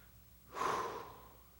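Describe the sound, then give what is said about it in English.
A single deep breath during a church sermon: a soft rush of air that swells quickly, holds for about half a second, then fades, with no talk over it. “Breathe. Just take a deep breath.”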